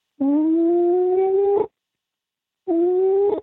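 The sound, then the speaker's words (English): A person's voice imitates an animal howl, giving two long, sustained tonal howls with a slightly rising pitch, separated by a brief silence, the second one shorter and cut off. “it's a really bad impression, but it was, you would hear the howl”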